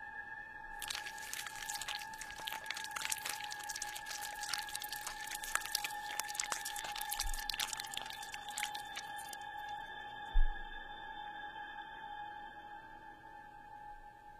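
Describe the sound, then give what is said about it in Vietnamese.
Crunchy chewing on half a cat carcass: many faint, irregular crackling crunches in a dense run that stops partway through, set over a steady high-pitched hum. “Nó ngồi đó cầm nửa con mèo rồi bắt đầu nhai rau ráu.”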